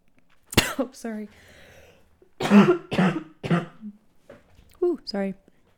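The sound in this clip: A person with a tickle in the throat clears it and coughs in several rough, throaty bursts. Some bursts have a voiced, grunting tone, with short pauses between them.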